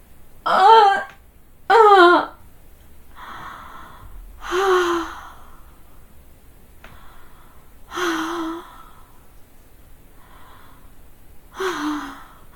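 Deep, audible breaths and gasps, five in all: the first two are voiced with a pitched catch, and the later ones are softer, breathy exhales separated by quiet pauses.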